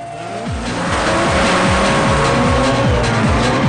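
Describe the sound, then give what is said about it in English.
Engines roar as cars launch in a street race. The pitch climbs in repeated sweeps through the gears, the sound growing louder over the opening half second and staying loud, with tire squeal mixed in. “The cars speed away together, raising a trail of dust.”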